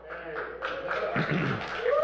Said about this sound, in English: Cheers came from property owners located east of the freeway and south of Highway 21.